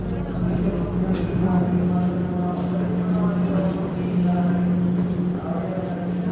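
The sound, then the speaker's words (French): Steady, loud rumble and hum of trains at Shinjuku railway station in Tokyo on a busy 1964 morning, a dense continuous roar with a low droning tone and an indistinct murmur of voices throughout. “Des trains, encore des trains, toujours des trains.”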